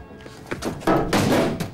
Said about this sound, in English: Shane looks up at Steve and slams the door. He punches the door in frustration.